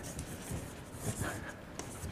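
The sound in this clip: Scratchy writing on a board during a physics lecture, a faint, steady rasp with a few sharper strokes and no clear voices.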